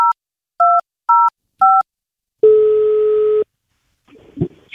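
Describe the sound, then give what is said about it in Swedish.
Four short keypad tones as a phone number is dialed, evenly spaced, followed by one long steady tone and a faint rustle at the end. “Jag har ett nummer här. Oh shit, jag kan inte slå och prata samtidigt. Då kommer jag ringa fel.”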